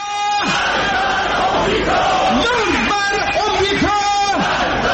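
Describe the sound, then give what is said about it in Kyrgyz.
A crowd shouts slogans at a state-organised rally backing the government and denouncing foreign countries including the USA. Several loud chanted phrases end in falling cries over constant crowd noise. “бийлиги уюштурган жана мамлекеттик телеканалдар түз чагылдырган демонстрациялары учурунда азыркы саясий режимди колдогон, ошол эле учурда бийлик айыптаган чет мамлекеттерден, анын ичинде АКШны жектеген уран чакырыктар айтылып жатты.”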